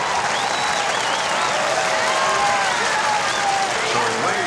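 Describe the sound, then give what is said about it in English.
A stadium crowd at a California Angels baseball game applauds and cheers to welcome an opera singer before the national anthem. The roar is continuous and loud, with cheering voices mixed into the clapping. “please welcome internationally renowned opera star Enrico Palazzo.”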